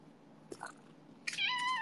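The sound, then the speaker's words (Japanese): A pet cat meows eagerly for a treat. A faint short chirp comes first, then one clear, drawn-out meow at the end, all quiet. “大好きなんだよね、これ。メルの猫ちゃん。これ、出すとね、めっちゃ泣くの。”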